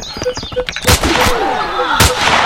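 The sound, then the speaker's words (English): Sniper rifle gunfire in a video game: two heavy, booming shots with sharp attacks and lingering tails, preceded by a few quick, smaller clicks and blips from the game. “Let's use the sniper rifle to take care of these guys.”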